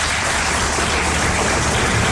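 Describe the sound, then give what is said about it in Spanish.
An audience at a hotel event in the Dominican Republic applauds in dense, continuous clapping that fills the whole clip at an even level. “el señor Luis López, para quien pido un aplauso”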